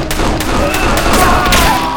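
Pistol gunfire during a shootout against a group of hired gunmen: several sharp, loud shots cut through a dense, continuous wash of noise, with no clear gap between them.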